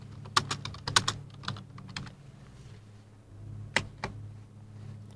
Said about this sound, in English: I'm just going to type it.